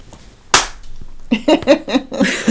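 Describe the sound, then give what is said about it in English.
A single sharp, loud clap of hands smacked together overhead in a self high-five, followed by a brief pause and then a voice. “and when you give yourself a high five, you swing your arms up over your head and you clap them together. That's what that sound was”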